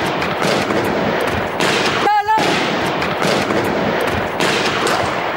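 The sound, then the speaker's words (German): Gunfire from two heavily armed, masked attackers storming an editorial office in Paris, filmed on a phone from a neighbouring building: dense, noisy bursts of shots run throughout, with a brief tonal cry in the middle. “Zwei vermummte und schwer bewaffnete Männer stürmen in die Redaktionsräume und beginnen sofort zu schießen.”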